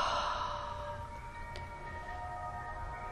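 A slow, breathy exhale after a deep breath held during meditation, loudest at the start and then gently tapering into a long, soft release.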